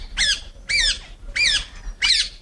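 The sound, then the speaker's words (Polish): An alexandrine parakeet gives four harsh, loud squawks, evenly spaced with short silences between, and no other sounds are heard. “Aleksandretty mają duże zdolności naśladowcze, potrafią kopiować różnego rodzaju odgłosy, choć nie tak dobrze jak papugi Żako.”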